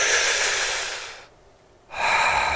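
Slow, deep belly breathing during a relaxation exercise: one long airy breath, a short silent pause, then another steady breath, soft and unhurried with no talking.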